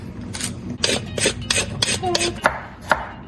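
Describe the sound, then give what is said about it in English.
A carrot being peeled: many quick, rasping scraping strokes in an uneven rhythm, fairly loud and close together. “While you do that, I'm going to peel the carrot,”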